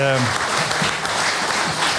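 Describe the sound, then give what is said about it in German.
Applause fills the Bundestag during a speech, a dense, loud wash of clapping that holds throughout, with a voice briefly audible at the very start. “Ja, das alleine ist allen Applaus wert.”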